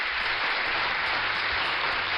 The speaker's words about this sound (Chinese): 那我们要送个掌声给我们聪明的子清